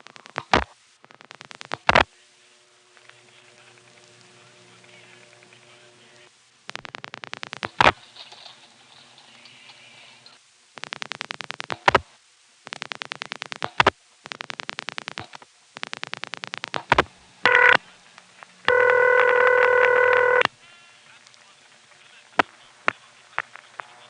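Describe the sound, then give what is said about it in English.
A telephone call is switched through a crossbar 5 exchange and routed to intercept. Sharp relay clicks and bursts of line noise come in irregular spurts, then a steady, buzzing tone sounds near the end. “From this same location, here's a call to a number in a crossbar 5 going to intercept.”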